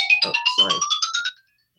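An obnoxious mobile phone ringtone plays a rapid run of chirping electronic notes over a tone that climbs steadily in pitch. It is loud and bright, then cuts off abruptly.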